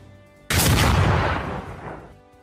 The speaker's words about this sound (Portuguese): Uma segunda explosão é ouvida vindo do lado de fora